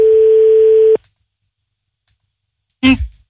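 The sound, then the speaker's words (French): A steady telephone line tone sounds for about a second while a number is dialled live, then cuts off into silence before a brief noisy burst near the end. “On y va, on compose le numéro de téléphone en direct.”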